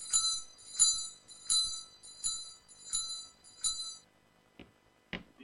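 A small bell is rung to summon a servant, giving six bright, high-pitched rings at an even pace. The rings are fairly quiet and are followed by two soft knocks.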